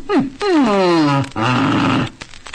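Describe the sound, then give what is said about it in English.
A dog vocalizing in three drawn-out, tonal whine-like calls, the first two sliding down in pitch. The calls are loud and heard alone, with short gaps between them. “Do you understand your dog? Do you know what your dog means when it makes a sound like this?”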